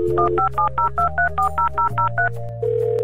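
Telephone keypad tones ring out as a number is dialled, a quick, even run of about a dozen short beeps over a low steady hum, ending in a sustained tone.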